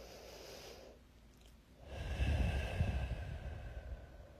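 A deep breath drawn in during a guided breathing exercise: a steady, airy inhale rises out of near silence about halfway through and holds strong to the end, with no talking.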